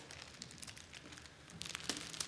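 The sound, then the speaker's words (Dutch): Gift wrapping paper crinkles and rustles as a small wrapped package is opened. The crackles are irregular and light at first, then grow denser and louder toward the end. “Dus ja, dan ga je dat pakje openmaken. En dan is dat natuurlijk wel heel spannend, want wat zit er dan in?”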